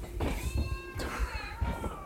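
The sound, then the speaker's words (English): A house cat meows a few times: faint, tonal calls with wavering pitch, each rising and sliding off, spread evenly across a couple of seconds. “My cat's gonna meow, of course.”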